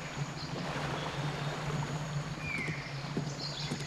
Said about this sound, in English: Stop the boat! Stop it! Why are we stopping now? Could be fuel.